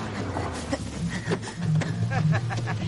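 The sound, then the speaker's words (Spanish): A car arriving quickly at a scrapyard: a steady, low engine rumble that swells slightly midway, with faint voices over it. “Por las ventanillas ve llegar rápidamente un coche al desguace.”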